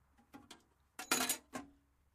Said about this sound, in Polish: To standardowe klucze, więc ci wrzucam.